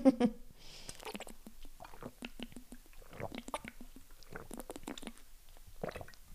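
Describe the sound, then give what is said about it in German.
Someone takes a sip of a drink, making many faint, wet mouth clicks and soft swallowing squishes in quick succession. “Ich muss mal wieder einen Schluck trinken, es ist gerade einfach zu warm, es tut mir leid.”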